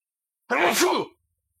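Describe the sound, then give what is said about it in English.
A single sneeze during a sports talk show segment: one short, forceful voiced burst of under a second, loud and alone, with no talk around it. “like how I'm going to sneeze.”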